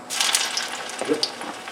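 Flattened green plantains sizzle in hot oil for tostones, a steady, fairly loud crackling hiss with scattered small pops running through the whole clip.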